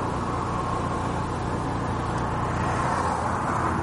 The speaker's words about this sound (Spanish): La conductora reanuda la marcha. Permanece atenta a la carretera.